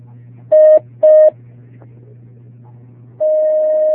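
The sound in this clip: Telephone line tones as a call connects: two short, steady beeps in quick succession, then a pause over a low hum, then a long unbroken tone that holds to the end.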